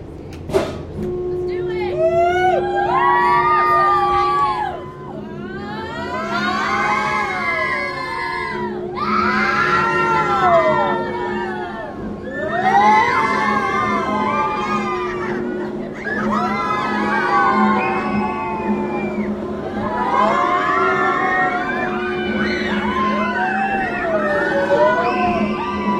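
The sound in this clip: People screaming on a swinging pirate ship amusement ride, a loud crowd of shrieks and yells that surge in repeated waves with each swing and briefly dip between them.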